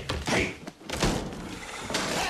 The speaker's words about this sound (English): He opens his bedroom door with a backward kick.